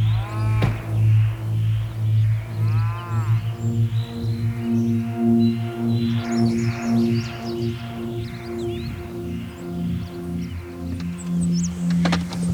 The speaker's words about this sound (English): So this is where the heifers are.